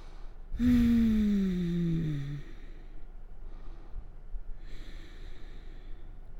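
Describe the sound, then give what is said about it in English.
Deep breathing during a yoga stretch: one loud, long, voiced sighing exhale that falls in pitch, followed by quieter, softer breaths. “let's just take a couple more massive inhales and massive exhales here.”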